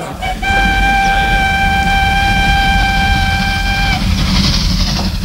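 A train departing as a sound effect in a children's audio story: one long, steady horn blast of about three and a half seconds over loud rolling rumble, which continues alone after the horn stops.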